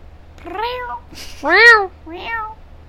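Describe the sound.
A person's voice imitates a cat meowing: three separate meows, each arching up and then down in pitch, with the middle one loudest and longest and a short breathy sound before it.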